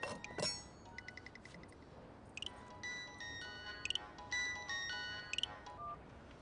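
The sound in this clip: A mobile phone ringtone plays while a call is placed: a faint electronic melody of bright beeping notes that repeats in short phrases, with no voices.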